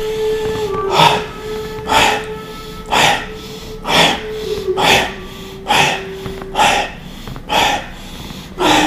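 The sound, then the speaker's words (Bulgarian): Bhastrika breathing, with deep chest inhales and sharp, forceful exhales, repeats in a steady rhythm of roughly one breath per second, each exhale a breathy burst over a faint sustained tone. “влез в бастрика, гръдно, дълбоко вдишване и рязко издишване”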